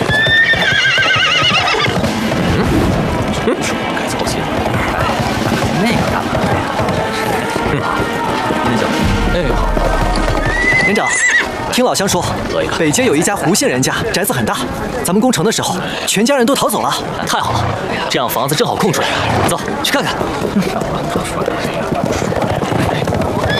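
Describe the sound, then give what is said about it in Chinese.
Horses being ridden clip-clop steadily as soldiers set out to search a town for a house, with loud neighs and whinnies over continuous hoofbeats while people talk. “大家骑马分头找房子”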